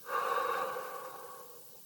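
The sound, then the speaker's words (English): One long, soft breath, airy and steady, slowly fading over nearly two seconds, taken during a calm guided breathing exercise. “Breathe in, breathe out,”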